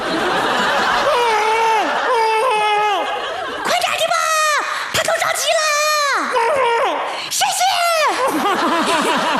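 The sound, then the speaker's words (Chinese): A person crying in distress, loud wailing sobs with repeated arcs of high, strained pitch that rise and fall in a steady string of cries through the whole clip. “他都急哭了”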